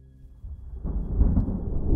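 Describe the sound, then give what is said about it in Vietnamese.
Thunder rumbles in a deep, rolling roar, starting faint and swelling to a loud, sustained growl through the second half with no voices. “Vừa dứt lời thì tiếng sấm ở đâu đì đùng đánh cho dòng nước hai bên cầu sôi lên ùn ụt.”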